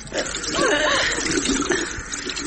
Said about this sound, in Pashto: دغسه اوس د مخ ته اوبه واچوه.